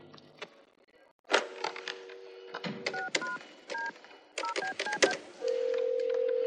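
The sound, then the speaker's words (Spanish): A telephone receiver is picked up and dialed: clicks and handling knocks, then several short two-tone keypad beeps, ending in a steady continuous line tone. “busca un número en su agenda y descuelga el teléfono.”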